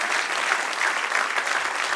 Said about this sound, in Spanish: Denle un aplauso al que reina.